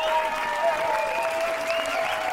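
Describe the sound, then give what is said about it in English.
Loud, dense audience applause at a live comedy show, with many hands clapping in an even, unbroken wash that holds steady from start to finish. “Round of applause, David Edwards!”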